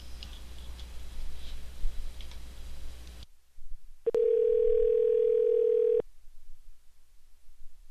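A telephone line gives a sharp click and then a single steady ringing tone lasting about two seconds while a previously rejected call is redialed, preceded by a stretch of low background noise.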